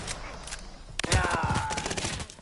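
Gunfire in a Call of Duty style video game erupts midway as a dense burst of rapid, crackling automatic shots over a noisy game background.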